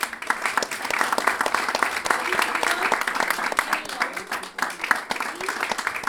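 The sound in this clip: Audience applause at an improvised-verse performance as a guest improviser is introduced: dense, steady clapping that carries on unbroken for the full length, loud and even throughout.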